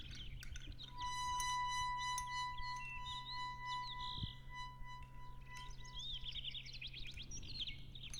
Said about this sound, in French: Chez elle, il y a un canari, pas un canari de concours. Il chante juste pour elle.